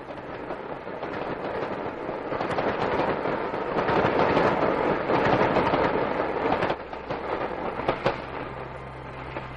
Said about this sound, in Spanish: Se acerca un tren. Pero no es el que estamos esperando. Por supuesto que no. Es el de carga que pasa hacia el norte.